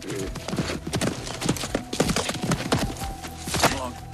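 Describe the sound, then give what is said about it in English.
A horse hobbles three-legged round a corral, its hooves landing in uneven, irregular clops and thuds, many steps stumbling out of rhythm at moderate loudness. “Tom slaps the rope against his leg and on Pilgrim's rump, and the horse hobbles three-legged round the corral.”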